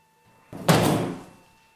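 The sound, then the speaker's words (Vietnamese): A door slammed shut as someone runs inside: one heavy, loud thud with a short rumbling decay that fades over about a second. “đoạn chạy vào trong đóng ập cửa lại.”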